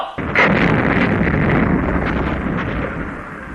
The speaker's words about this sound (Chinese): 在人民解放军强大的炮群射击下，敌阵地被炸